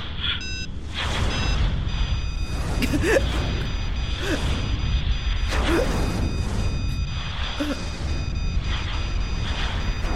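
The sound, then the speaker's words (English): An EMP blast from a weapon whose safety systems have been destroyed, far stronger than earlier pulses: a dense, loud roaring rumble with repeated surging whooshes. Thin high whine tones sound at the very start. “Another EMP. Far greater range and strength than those previous now that the key has destroyed the weapon's safety systems.”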